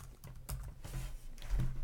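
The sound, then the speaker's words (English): Typing on a computer keyboard produces a quick series of light plastic key clicks in an irregular rhythm, fairly soft, with no voices. “let's just go crazy here and type that in”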